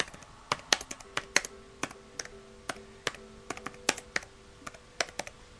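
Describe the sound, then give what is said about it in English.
Computer keyboard typing: many light, irregular key clicks, some in quick clusters and others spaced out, fairly faint over a low steady background hum. “hold I'm typing.”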